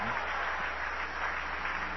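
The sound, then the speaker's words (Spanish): An audience applauds during a church service, giving steady, continuous clapping for about two seconds with a dull, muffled tone. “Vamos a aplaudir al Señor. Y a su nombre.”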